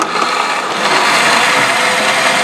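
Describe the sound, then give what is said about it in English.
A blender roars steadily, blending ingredients for sopa de fideo: a loud, continuous whirring grind that holds constant throughout. “So hopefully this is closed properly, Charlie. Hopefully. Hopefully. We'll see. We're going to take a risk. And then we are just going to hit blend.”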